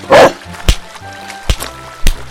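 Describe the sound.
A dog gives one loud bark, then three shorter yelps spaced out at intervals as it is chased off.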